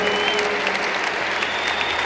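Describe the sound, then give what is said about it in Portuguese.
Applause from a church audience welcoming a monsignor after a prayer: dense, steady clapping that fills the whole stretch without a break, with no voice on top. “e o Monsenhor Jonas Habib entende isso, vamos acolhê-lo com uma salva de palmas.”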